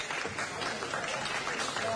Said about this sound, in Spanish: Gracias por sus aplausos.